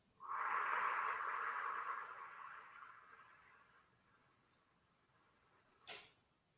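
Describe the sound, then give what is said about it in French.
A deep inhale and long exhale during a relaxation exercise: a strong airy rush of breath that slowly fades over several seconds, followed by a couple of faint clicks. “Une inspiration profonde et une expiration profonde.”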